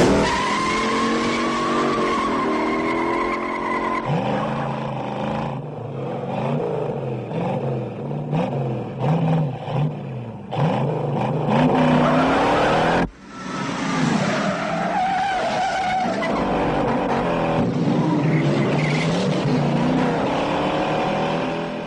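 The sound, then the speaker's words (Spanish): Engines of a Ford Mustang and a Dodge with a rough carburetor roar through a car chase with no music, loud and sustained, revs climbing and falling, with skidding tires and a sharp brief dip near the middle. “Sabe irse a tiempo para dejarnos el rugido del Mustang, característico y pasional, mezclado con el rudo carburador del Dodge.”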